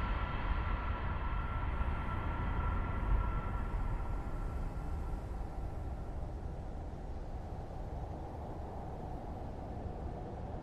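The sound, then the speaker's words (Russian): Front cars of a damaged train rolling out of a tunnel and coming to a stop, a dense, steady roar and rumble that eases slightly in loudness as it goes on. “Выехав из туннеля, передние вагоны поезда останавливаются.”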